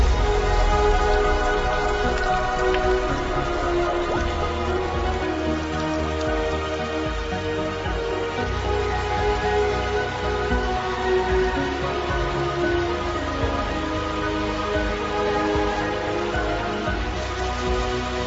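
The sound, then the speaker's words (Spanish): Heavy rain pours down in a Florida wetland during a sudden downpour, a steady, loud, dense hiss of drops on surfaces that holds even for about eighteen seconds with no voices. “Y en Florida, cuando llueve, diluvia.”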